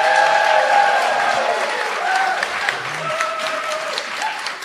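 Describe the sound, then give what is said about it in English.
A live audience of about 150 people applauds at the Linda in downtown Albany. Steady, full clapping from the crowd holds throughout and eases slightly toward the end. “We're before an audience of about 150 people. They sound great. How great do they sound here? Listen to this.”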